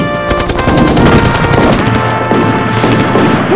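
Rapid machine-gun fire during a staged attack in a comedy sketch, a loud, dense rattle of continuous bursts lasting a few seconds with no talking over it.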